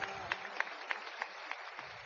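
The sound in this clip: Faint rhythmic clapping from an audience at a gathering, with the hands striking together in a steady beat of about three claps per second that runs evenly through the whole stretch.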